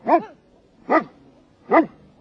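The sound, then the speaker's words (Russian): Three deep, evenly spaced barks from a Newfoundland Landseer search-and-rescue dog, each a loud, short, resonant woof separated by quiet gaps, with no talk. “ее порода Ньюфаундленд Лензер. Даже по голосу можно определить, что собака она добродушная, рассудительная.”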